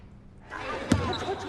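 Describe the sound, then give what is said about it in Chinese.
A single basketball bounce thuds on a university basketball court during play, one sharp impact rising out of a steady wash of background noise. “此时郑寒江正在綦江大学的篮球场上挥汗如雨，他灵活的穿梭。轻松突破了对方的防线，完成了一个又一个精彩的上篮。”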